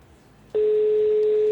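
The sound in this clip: A telephone tone sounds on a call to a phone that goes unanswered and reaches voicemail. After a quiet lead-in, a single steady, mid-pitched electronic tone holds unbroken for about a second.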